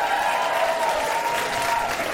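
An audience claps and applauds at a live comedy show after a performer is introduced. The applause is a steady, dense wash of many hands that stays even in loudness throughout.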